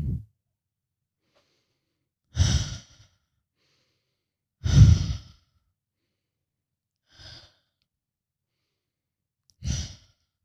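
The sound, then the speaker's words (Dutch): Slow, deep breathing during a guided relaxation exercise, in through the nose and out through the mouth: a few breathy whooshes spaced a couple of seconds apart, one softer than the rest, with silence between and no talk. “In door de neus. Uit door de mond. Goed zo.”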